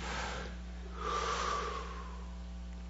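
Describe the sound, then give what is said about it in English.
One long, deep breath is drawn in after a full exhale during a guided breathing exercise. It is an airy, rushing inhalation that swells in the middle, over a faint, steady low hum. “Exhale as far as you can exhale, and then take a real deep breath in. Let's do that together.”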